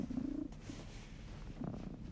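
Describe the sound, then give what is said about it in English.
A pet cat purring while being petted, a low, soft pulsing rumble that is clearest at the start, fades briefly, then swells again near the end. “here he is. He's purring, and I'm petting him”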